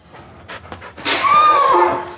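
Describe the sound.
A dog pants in quick, breathy bursts, a few short puffs at first, then a louder, sustained run of heavy panting that fades slightly at the end.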